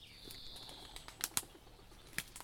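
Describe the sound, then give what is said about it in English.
Wings of a wood pigeon flapping as it takes off from overgrown land of nettles and brambles: a few sharp, papery claps over quiet background, with a faint high tone at the start. “with a little wood pigeon flying off.”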